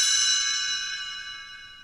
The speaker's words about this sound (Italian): Quando dovrai voltare pagina, sentirai il campanello suonare così.